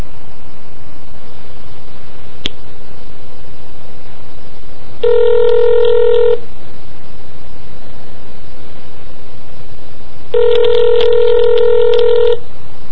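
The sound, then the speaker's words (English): Touch-tone keypad tones as a number is dialed to a time-and-temperature phone line in Las Vegas, heard as two separate bursts of quick dialing beeps over a steady background hiss. “so I'm gonna go ahead and dial that one up now.”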